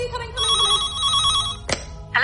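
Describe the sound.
An old-style telephone bell rings in a steady trilling pattern of bright, warbling tones, then a sharp clatter sounds, followed by a brief voice.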